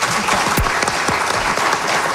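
Applause for invited guests on a morning program: a brief, dense, steady burst of many hands clapping at an even loudness throughout, without talk.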